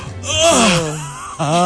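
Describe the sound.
A voice imitates a big, exaggerated yawn: a drawn-out voiced moan whose pitch wavers and sinks, then breaks off and briefly swells again at the end.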